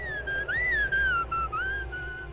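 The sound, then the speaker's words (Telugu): Someone whistling a wavering tune in the distance, the clear tone gliding up and down through a few short phrases with brief breaks, heard alone over a faint low hum. “దూరంగా ఈల వేస్తూ ఎవరో వస్తున్నట్టు వినిపించింది.”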